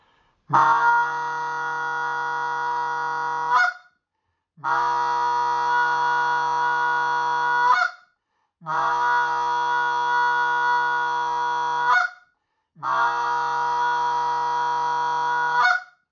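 A hand-blown goose call, driven by pushed air, gives four long drawn-out honking notes of about three seconds each, separated by short gaps. Each note is loud, buzzy and harmonically rich, with a steady pitch.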